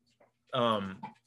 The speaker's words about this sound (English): Get down, dog.